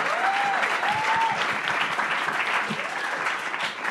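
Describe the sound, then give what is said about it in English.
A crowd erupts in sustained, even applause at a singing performance. Many hands clap loudly and steadily throughout, and a voice calls out briefly near the start. “You can applaud that. The crowd erupts in applause.”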